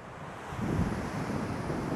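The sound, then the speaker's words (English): Wind buffets a microphone outdoors, a steady low rumbling roar with gusts that swell and ease over two seconds, with no talk. “All right, I'm going to turn around now and walk into the wind, which would mean that this podcast would turn into one big fluffy mess. I'll just give you a little sample of what it looks like before I leave.”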